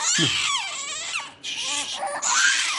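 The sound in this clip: A baby cries inside a box, loud sustained wails with sweeping pitch and a short breathy pause midway before the sobbing picks up again.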